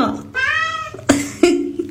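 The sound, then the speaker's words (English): A cat gives a long, wavering meow that resembles a spoken greeting, followed by two shorter, sharper vocal sounds. “It's the cat that says hello.”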